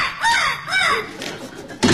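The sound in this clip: Harsh, raspy squawks from a macaw, a few loud screeching calls with sliding pitch and short gaps between them, ending in a rough, noisy burst.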